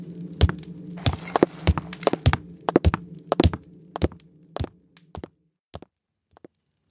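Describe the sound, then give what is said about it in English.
Rummaging through a closet to pull out a black cloak: many sharp clacks, knocks and clicks in an uneven stream over a low steady hum, thinning to a few isolated taps before falling silent. “Athena rifles through her closet. She pulls out a black cloak”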